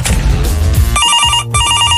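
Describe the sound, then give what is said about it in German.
A telephone bell rings in two bright, shrill bursts separated by a short gap, each ring a rapid metallic trill, loud and alone with no talk. “Soll ich da jetzt rangehen? Ja, geh halt ran.”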